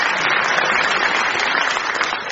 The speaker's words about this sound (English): Let's give a round of applause at the end of that with a double clapping of Sarah and Jack.